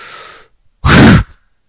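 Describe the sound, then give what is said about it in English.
A quick, soft breath in, then a short pause and a loud, forceful breath out, part of a guided relaxation exercise. “now with a quick breath in and a loud breath out.”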